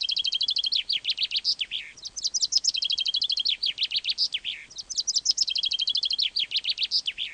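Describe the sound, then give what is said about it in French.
A common chaffinch sings in clear, high, repeated phrases, each a rapid descending series of bright notes ending in a quick flourish, with the phrases following one another over faint background hiss. “Le pinson des arbres.”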